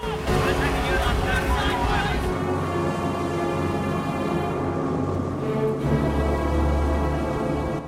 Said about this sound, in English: A large motorboat speeds beneath a bridge.